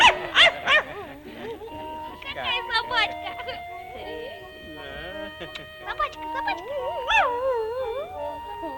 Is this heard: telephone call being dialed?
no

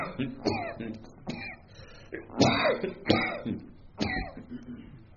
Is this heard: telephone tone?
no

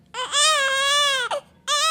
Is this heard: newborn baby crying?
yes

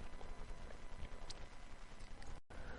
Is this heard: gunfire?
no

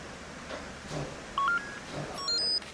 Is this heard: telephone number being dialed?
yes

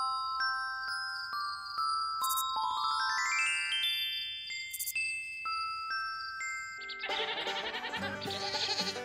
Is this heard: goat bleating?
yes

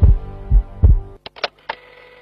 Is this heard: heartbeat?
yes

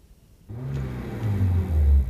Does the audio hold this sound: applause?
no

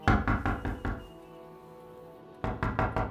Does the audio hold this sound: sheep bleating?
no

